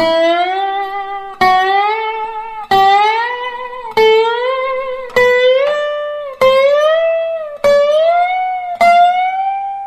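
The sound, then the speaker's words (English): Guitar notes slide up a major scale from the 2nd fret to the tonic at the 5th fret: eight plucked notes, each bending upward in pitch and ringing out clearly alone in a steady rhythm. “And I'll begin at the 2nd fret to get a nice long slide up to the tonic at the 5th fret.”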